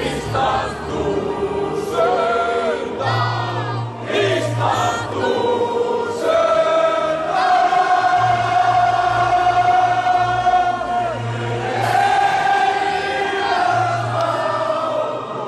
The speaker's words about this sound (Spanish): Y así suena cuando lo cantan los islandeses a pie.